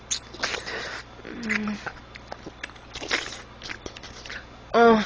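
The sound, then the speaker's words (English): Wet licking and smacking sounds come in irregular, quiet bursts of soft clicks and slurps, and a short vocal sound follows at the end. “do you like the noises I make while I lick her pussy?”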